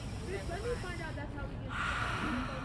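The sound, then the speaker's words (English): A breathy exhale through an open mouth, as in a workout breathing cue, follows a spoken voice as a soft, broad hiss near the end. “Inhale, exhale through the mouth, fogging up the mirror. Couple more. And last one.”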